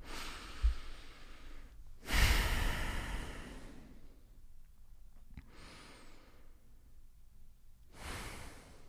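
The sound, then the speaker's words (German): Deep breaths drawn in and let out during a guided relaxation exercise, three long airy swells of breathing separated by quiet pauses, the second the loudest, with no talking over them. “zwei, dreimal tief ein- und ausatmen”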